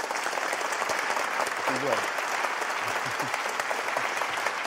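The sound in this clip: Warm audience applause welcoming a guest at a Socrates in the City talk in Oxford. Dense, continuous clapping runs throughout, with a few voices faintly beneath it.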